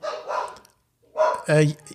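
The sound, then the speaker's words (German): A dog barks at arriving guests in a few short, sharp bursts after a brief stretch of talk. “Es kommen andauernd Gäste und der Hund rastet aus.”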